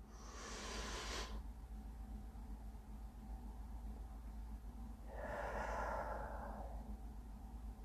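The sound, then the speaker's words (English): Breaths from a 4-7-8 breathing exercise: two soft, breathy rushes of air separated by a pause of several seconds, faint and heard without talk. “4, 7, 8 breaths. I can't stop giggling. Here we go. The first breath is always a little jagged.”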